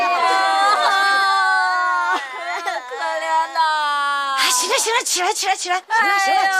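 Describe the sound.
A woman cries while sitting on the floor during a dispute over money. Her long, sustained, high wailing cry breaks into sobs, and other voices talk over it toward the end.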